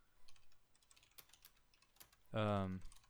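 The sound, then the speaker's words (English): A few light keystrokes on a computer keyboard, quiet and spaced apart, followed by a short hummed vocal sound near the end. “Oh, I just accidentally typed in Pebble 3 and then I got really depressed.”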